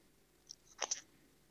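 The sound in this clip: Faint, crisp chewing of a Meteor from Domino's, a few short crunchy bites in quick succession, heard alone without talk.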